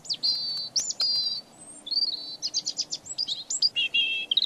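Swallows chirping in a lively run of many short, high twittering calls and trills, with a faint low hum underneath.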